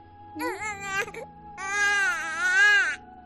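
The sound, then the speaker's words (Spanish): A newborn baby, 40 days old, cries in two wailing bursts: a short cry, then a longer, louder sustained wail with a wavering pitch. “Este bebé al que escuchas tiene solo 40 días de vida.”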